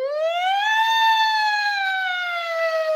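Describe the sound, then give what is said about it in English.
A voice imitates a siren with one sustained wail that rises, then slowly falls, loud and alone. “I'd always make the siren sound when something really, you know, like we're in trouble here.”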